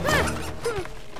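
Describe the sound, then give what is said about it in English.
Squeaks from a child's inflatable unicorn inner tube as he scurries around and crashes into another child. Two brief rubbery squeaks with sliding pitch are heard alone, with some soft bumping. “Rowley's unicorn inner tube squeaks as he scurries from tree to tree, then crashes into Greg.”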